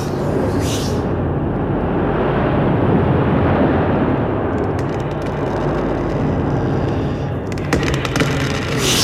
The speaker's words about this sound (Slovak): Nedokážem to! Ten vietor!